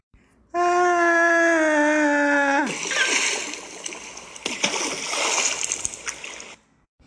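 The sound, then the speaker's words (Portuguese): Splashing as a boy falls headfirst into a water barrel used as an animal trough, a loud churning splash and sloshing that lasts several seconds before fading out, preceded by a steady tonal sound. “afunda no tonel onde os bichos matam a sede, levantando em seguida, batendo o queixo de frio.”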